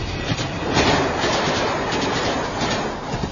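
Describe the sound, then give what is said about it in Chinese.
A tram running past in front of a small house gives a continuous broad rumble and rattle of wheels on rails, steady and fairly loud for the whole few seconds, with no voices. “不久，有轨电车在小房子门前开来开去。”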